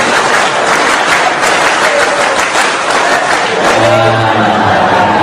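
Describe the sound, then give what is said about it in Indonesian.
Audience clapping the Indonesian scout clap pattern, loud group clapping in a quick rhythmic beat that gives way to a voice near the end. “Tepuk satu, tepuk dua, tepuk satu, tepuk tiga, tepuk pramuka.”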